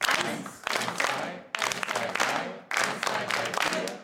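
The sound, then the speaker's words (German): A group clapping hands together in rhythm during a rhythm exercise: many crisp, fairly loud claps in three stretches separated by sudden breaks. “Die Gruppe soll in dieser Rhythmusübung gemeinsam im Takt klatschen.”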